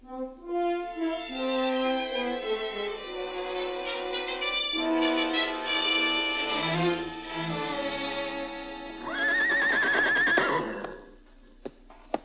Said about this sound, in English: Dragon Lady, Miss Elliot, all saddled for you.